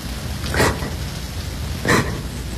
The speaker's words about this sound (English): Oh, God, it's raining again.